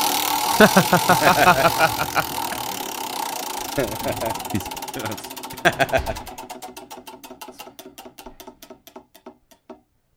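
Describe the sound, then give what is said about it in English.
Prize wheel spun to pick who goes first at a brewery beer tasting: rapid ticking that gradually slows into widely spaced clicks before stopping, with people talking over the first half. “All right, let's spin the wheel here and decide who's going to go first.”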